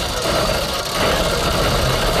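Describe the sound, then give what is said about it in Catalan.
A lottery drum with mobile phones inside being spun, giving a continuous, loud, rumbling and rattling churn that carries on without pauses. “tenim un bombo amb els meus telèfons mòbils posats a dins i aleshores, doncs, pum, surt una bola”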